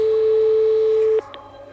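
Telephone ringback on an outgoing call: a single steady, loud tone holds for just over a second, then cuts off, leaving a couple of faint clicks and low background hum.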